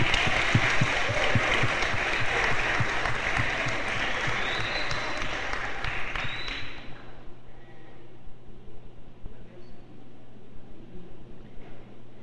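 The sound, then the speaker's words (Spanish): An audience welcomes a priest to a Catholic talk with hearty applause, a thick, even patter of many hands for about seven seconds before thinning and dying away into quiet room noise. “vamos a darle un fuerte aplauso al padre Alfredo Fermín”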